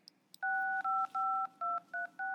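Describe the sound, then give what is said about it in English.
Telephone keypad dialing: six steady touch-tone beeps in a quick, slightly uneven sequence, preceded by two small clicks, with no talk. “I'm just going to call her because she's running late.”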